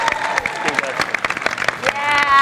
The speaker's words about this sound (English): Can we have one more round of applause, please?